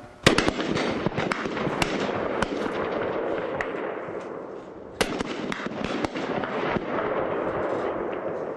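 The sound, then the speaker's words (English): M16 rifles fire at an army firing range with pop-up torso targets. Many sharp, loud cracks come at irregular intervals, some close together and overlapping, over a steady rumbling background. “This is the firing range for the basic weapon of an infantryman, the rifle, in this case, the M16.”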